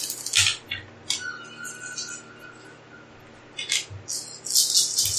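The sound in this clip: Dice rolled during a tabletop game: bright, clattering rattles of small hard pieces at the start and again near the end, separated by a quieter stretch, with low murmuring voices underneath.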